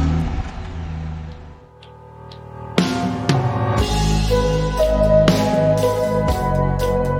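A car drives off, its engine revving and accelerating after a quieter opening, with a sudden loud onset followed by a sustained, mid-pitched engine roar and whir.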